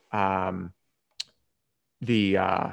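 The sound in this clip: A single crisp computer mouse click on an on-screen address, brief and sharp, falling in a quiet gap between two stretches of someone talking.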